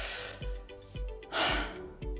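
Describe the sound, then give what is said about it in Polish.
Quick, shallow breaths with short exhales, a few soft breathy pulses in a steady rhythm over a low background hiss, one breath a little louder and noisier than the rest. “I ten wydech nie jest wcale odpowiednio długi, a wręcz jest krótszy od wdechu.”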